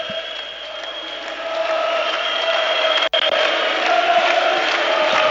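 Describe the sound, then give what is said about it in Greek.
A sustained roar from AEK basketball fans in the arena at Badalona, at the cup final against Rytas Vilnius. The crowd noise holds steady and full throughout, with chanting tones woven into it. “Κάνε μία παύση να ακούσουμε τον κόσμο.”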